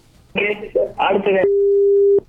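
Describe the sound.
A telephone line tone sounds after a caller's call is cut off: a single steady, mid-pitched electronic tone holds evenly for under a second right after a voice stops, then ends abruptly.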